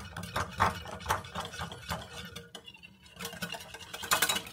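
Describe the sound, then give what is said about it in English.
A whisk beats ground garlic into a mixture containing maple syrup, making many quick, rhythmic metallic clinks and scrapes against the bowl at a steady pace. “Next up, some ground garlic, because you just can't not have garlic in here. And y'all know I love garlic, so, like, this is fine. It's fine. Give this a good old whisk.”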